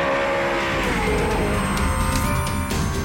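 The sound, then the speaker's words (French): Racing car engines roar as cars set off down the track at a Cuban Grand Prix. A loud, dense, continuous roar with a steady high whine carries through the whole clip. “En fin de matinée, les premières voitures s'élancent sur la piste.”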